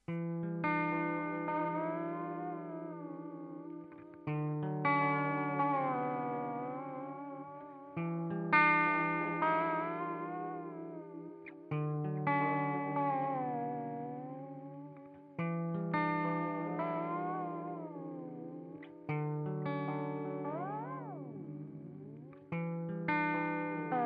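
Guitar played through a T120 videotape echo pedal by Demodesh Pedals, giving a garbled, warbling tape-like tone. A few repeated phrases each start with a sharp attack and slowly decay, and near the end the pitch dips steeply and rises back.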